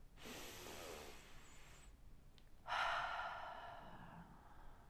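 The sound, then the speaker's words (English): A slow, deep breath: one long, soft inhale, a brief pause, then a long, airy exhale that starts stronger and tapers off. It is quiet, with no talk. “close your eyes, take a deep breath”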